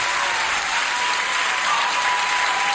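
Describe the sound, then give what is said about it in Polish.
An audience applauds artists who have just played and sung, a thick, uniform roar of clapping that stays loud and even from start to finish. “Brawa, brawa, brawa. Ogromne brawa nie tylko dla artystów, którzy zagrali i zaśpiewali przed chwileczką, ale także dla Państwa, którzy zgłosili się jako pierwsi.”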